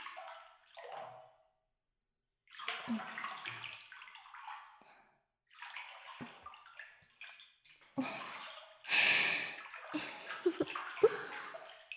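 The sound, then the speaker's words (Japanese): Water sloshes and splashes as someone settles into a bath of hot water, in several irregular bursts with short quiet gaps, ending in a louder surge of moving water. “あとはお湯に浸かってゆったりリラックスするだけだぞ。”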